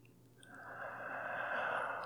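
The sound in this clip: A slow breath drawn in during a guided breathing exercise: a soft, airy hiss that swells gradually and holds steady for over a second, faint and alone with no talking.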